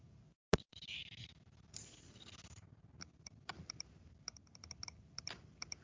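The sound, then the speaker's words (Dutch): Computer mouse clicks, a run of light, sharp taps at uneven intervals with one louder click near the start. Faint, with no voices. “hier staat zo'n knopje, klik daar eens op.”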